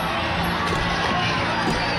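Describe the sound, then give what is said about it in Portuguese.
Dense roar of a crowd shouting in the streets of Havana during a street demonstration, a steady, unbroken wall of massed voices throughout. “Nas ruas de Havana há gritos de ordem.”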